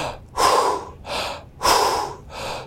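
Bellows breathing exercise: four loud, forceful bursts of rapid breath through the nose and mouth, in a quick even rhythm, with no talking.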